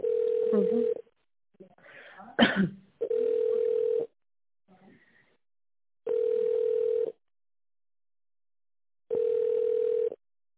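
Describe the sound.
Telephone ringback tone plays while a call is put through to a reception desk: four steady one-second beeps at a single mid-low pitch, evenly spaced about three seconds apart, with a brief muffled rustle and a sharp click between the first two.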